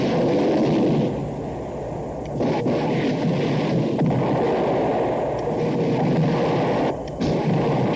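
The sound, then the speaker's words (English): Movie explosions and artillery fire merge into a dense, continuous roar as a heavy barrage is unloaded on a target in an action film. The loud, rumbling wall of noise has only a few brief dips and no talking. “Just everything he's got, throwing it at him. So many explosions. It's such overkill.”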